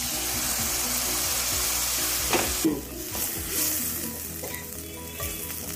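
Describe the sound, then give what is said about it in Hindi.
Steady sizzling of masala frying in oil as yogurt is added while cooking mutton keema; the hiss is loud and continuous, with a brief sharper burst about midway before settling into a calmer crackle. “थोड़ी सी इलायची powder और अच्छी तरह से मसाला भून गया है डाले वो भी अच्छी तरह से भून गया तेल में अब इसमें दही डाल दीजिए”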